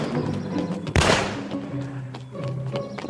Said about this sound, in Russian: Мужчина в костюме стреляет.